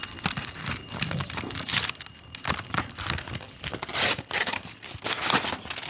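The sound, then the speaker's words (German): A golden envelope is torn open with a continuous crinkling, rustling and tearing of paper, uneven bursts of crackle rising and falling throughout. “Der goldene Umschlag. Ich mach ihn mal auf.”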